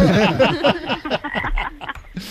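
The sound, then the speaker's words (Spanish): Frog croaking, played as an animal sound in a guessing game: many harsh, rasping calls in quick succession, loud and heard alone. “Una rana. Sí, señor.”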